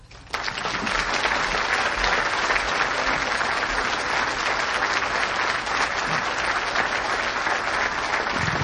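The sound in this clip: Applause for presidential candidate John McCain as he is introduced: after a brief quiet moment, clapping bursts in abruptly and stays loud and dense for about eight seconds.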